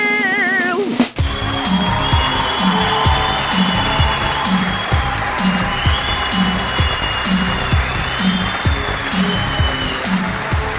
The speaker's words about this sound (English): So ladies and gentlemen, boys and girls, and my GNCs, wherever you may be, put your hands together for Jordy O'Dale!